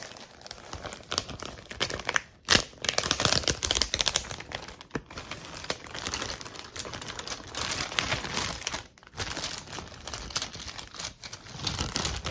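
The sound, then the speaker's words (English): Crinkling plastic rustle as hands rummage through a small zip-top bag of writing tools, a steady crackly texture lasting throughout, with brief lulls near the start and again toward the end. “Okay, so I have a little Ziploc baggie of different things we can use.”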